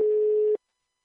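A telephone tone while a call is being placed: one steady electronic beep at a single pitch, lasting about half a second before cutting to silence.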